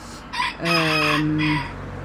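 A rooster crows among chickens kept near a vegetable garden, giving a short opening note and then a long, loud, harmonic call held for about a second before breaking off.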